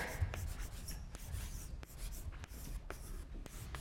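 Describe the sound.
Handwriting on a board: faint, continuous scratching and rubbing strokes, broken by several short, sharp ticks as the writing tool taps and lifts.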